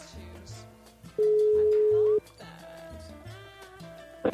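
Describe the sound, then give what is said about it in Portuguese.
An outgoing Skype call rings, sounding as one steady, clear tone held for about a second. Softer tonal sounds run underneath throughout. “Então o Renato Jaques, estamos ligando aqui para ele.”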